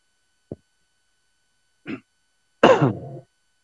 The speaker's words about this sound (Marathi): आज सकाळपासून बरंच रेकॉर्डिंग झालंय माझं, जवळजवळ 4-5 तास, त्यामुळे थोडा खोकला याची शक्यता आहे।